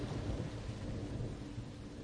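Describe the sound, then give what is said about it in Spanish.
Thunderstorm with continuous hissing rain and a low, rolling thunder rumble beneath it, quiet and steady throughout without distinct cracks. “La tormenta cesó.”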